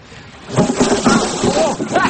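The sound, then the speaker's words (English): Rain and rising wind ahead of a storm: a steady, loud rushing wash that swells in after a quiet start and holds to the end, with faint voices underneath. “Hey, that rain? Aye, wind's getting up too. We're in for a storm.”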